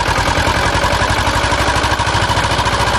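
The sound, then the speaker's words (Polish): Motorboat with an Ursus engine entering a bay: a loud, steady chugging engine with rapid, even low pulses throughout and no voices. “Motorówka z silnikiem Ursusa wpłynęła do zatoki.”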